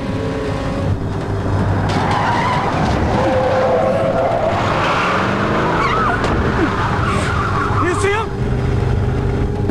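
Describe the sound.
Pickup truck tires squealing and skidding as it swerves onto a highway: shrill, wavering screeches over a loud, dense engine roar and rumble that continues without a break.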